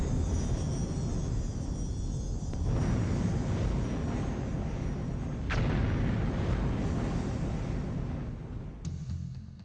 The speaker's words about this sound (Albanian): Malet e stërmëdha shpërthejnë si rezultati trysnisë vulkanike nën tokë.